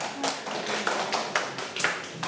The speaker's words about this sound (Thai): เด็กๆปรบมือให้เพื่อนลูก